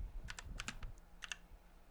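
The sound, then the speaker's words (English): Fingers tap on a computer keyboard: a quick, faint run of sharp clicking keystrokes, a short gap, then two or three more clicks and quiet. “there it is, baby. There is your typing ASMR.”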